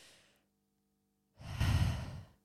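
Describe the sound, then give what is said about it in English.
A deep breath taken during a relaxation exercise. A faint breathy tail gives way to a short silence, then a long, loud, airy exhale swells up and slowly fades. “Take a deep breath with me. Relax your shoulders. Relax your jaw. Take another deep breath.”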